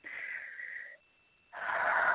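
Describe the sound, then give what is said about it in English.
A deep breath taken during a guided breathing exercise: two long, airy rushes of breath, the second louder and fuller, separated by a brief silence, with no talk over them. “So I also need a deep breath.”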